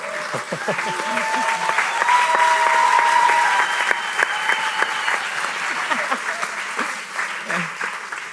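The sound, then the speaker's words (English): A poetry slam audience in Bankstown breaks into loud, continuous applause, with high sustained vocal cries and ululation rising above the clapping. “An event would not be complete without the ululating, apparently, in the back.”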